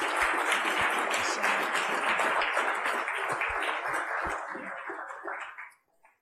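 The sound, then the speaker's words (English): Audience applause at an event in Tennessee, a dense, sustained clapping that holds steady for about five seconds before quickly fading out. “Let's give it up for Margaret.”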